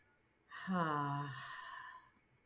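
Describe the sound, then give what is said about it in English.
A deep breath is let out as a faint, voiced sigh during a guided relaxation exercise. The single soft exhale lasts about a second and a half, starting fuller and tapering off gently. “just soften your face, soften your shoulders, take a deep breath and exhale.”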